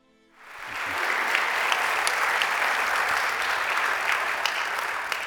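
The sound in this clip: A church audience applauds a guest speaker at a morning service, with steady, dense clapping from many hands that starts quickly and holds at an even level for about five seconds.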